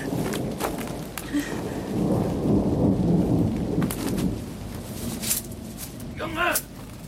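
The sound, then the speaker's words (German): Thunderstorm with rolling thunder and steady rain: a loud, continuous low rumble that swells through the middle over a constant hiss of rain, with a short high cry of a voice near the end. “Und dann kam das Gewitter. Ein Gewitter, wie ich es noch nicht erlebt hatte.”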